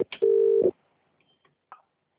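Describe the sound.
A telephone dialing a call: a short opening burst, then a steady mid-pitched tone lasting about half a second, followed by quiet ticks and one brief final blip.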